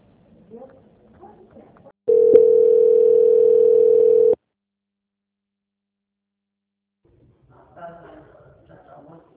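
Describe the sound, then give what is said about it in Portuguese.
A telephone line holds a steady single-pitched tone for about two seconds while a call is transferred, with faint voices briefly before and after it. “peço que aguarde em linha. Vou transferir o seu contato para o controle de qualidade.”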